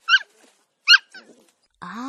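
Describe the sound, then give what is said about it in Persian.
A small dog sitting in front of a clothing shop window gives two short, high yips separated by a brief pause, with faint softer sounds in between. “چند قدم اونورتر سگ بامزه میشینه، اونم کجا؟ درست جلوی ویترین لباس فروشی.”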